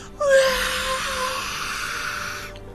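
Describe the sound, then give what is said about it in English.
An eerie ghostly wail, a single drawn-out, breathy, moaning tone that rises in at the start, holds for about two seconds and then fades away. “And then all of you at once hear this wail.”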